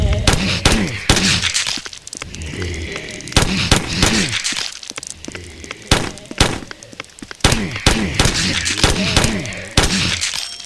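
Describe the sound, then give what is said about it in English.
Pistol shots and bullet impacts in a video game, many sharp loud cracks firing in quick, irregular succession with thudding and breaking impact noises between them. “So let's go back to my pistol, which I like a lot. And you're going to notice that the impact sounds have been adjusted now, so you hear them better.”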